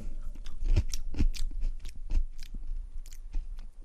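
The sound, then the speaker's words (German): Crisp crunching and chewing of a fresh, fruity chili pepper being bitten into, with several sharp crunchy bites followed by softer, quicker chewing. “Sehr lecker. Mal sehen, manche zünden ja nach. Eine sehr frische, fruchtige Chili.”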